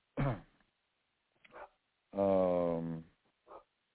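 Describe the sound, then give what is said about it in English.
A dog barks in the background, faint overall: a few short yelps and one longer, drawn-out whining call, separated by pauses. “You hear a dog in the background, that's Spaz”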